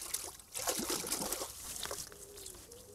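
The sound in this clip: Water trickles and splashes softly as a plant's roots are rinsed before the plant goes into winter storage. The quiet, continuous dribbling has light sloshing that eases off slightly toward the end.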